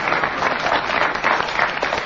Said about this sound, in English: I think the audience applause indicates that Paul Merton should get a bonus point for the challenge